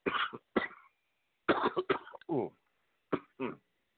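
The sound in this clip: Harsh, dry coughing in several short clustered bursts separated by brief silences, with a couple of short voiced throat sounds among them.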